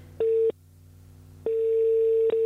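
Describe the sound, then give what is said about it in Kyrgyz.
Electronic telephone tone heard while calling a listener back: a steady, mid-pitched beep plays in two bursts, a short one and then a longer one after a brief silence, over a faint low hum. “Чалып көрөлү, анткени мен жашылды басам деп кызылды басып алдым.”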